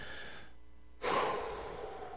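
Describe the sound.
A deep breath drawn in while sitting in a car: after a brief hush, a loud, breathy rush of inhaled air starts suddenly and then slowly tapers off.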